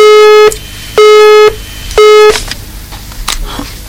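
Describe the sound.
Three long electronic beeps signal an incoming phone call to a studio. They are loud, steady and mid-pitched, evenly spaced, and followed by faint background noise.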